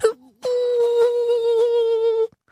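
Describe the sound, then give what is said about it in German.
A voice imitates a howling creature's wail: a short low cry, then one long, steady, sustained moan of nearly two seconds that cuts off abruptly. “Und geheult habe ich selber, weil ich mir den Zeh angestoßen habe.”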